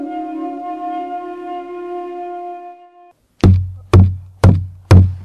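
Four loud, heavy knocks on a door, each a sharp thud with a short decay. They come at a steady, even pace after a sustained steady tone that cuts off into a brief silence.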